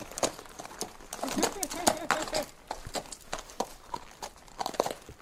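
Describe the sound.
Hoofbeats of a ridden horse walking on, a steady run of many sharp clip-clop steps with a voice speaking at times over them.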